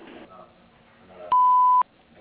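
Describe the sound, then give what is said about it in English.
A single answering machine beep sounds as a steady, clean electronic tone of about half a second, following brief faint talk and fading into quiet afterward. “Please leave a message after the beep, and we'll get back to you soon.”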